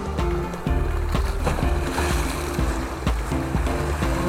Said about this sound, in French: Le bruit des lames déferlantes, un long claquement d'étoffe mouillée.